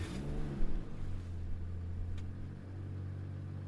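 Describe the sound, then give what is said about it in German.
A car engine hums low and steady, faint and without talk, with a slight surge early on as the car drives off from Styria toward Carinthia. “Aber jetzt fahren wir mal, verlassen wir die Steiermark und begeben uns über die Back Richtung Kärnten.”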